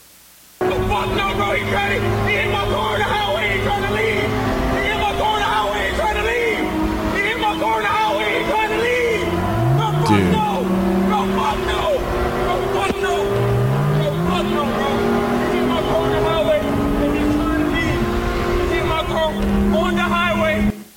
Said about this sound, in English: This guy's driving a damn Lambo, and he's videoing while he's driving probably 160, 170, weaving through traffic trying to get this guy because he hit the side of his damn car.